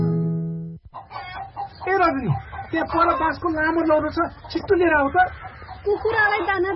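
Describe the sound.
Chickens on a poultry farm cluck in many busy, overlapping calls after a brief steady tone at the start, with the clucking continuing loudly to the end.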